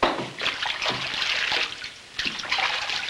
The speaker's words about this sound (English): He glances around, then dips his hands in a wash basin.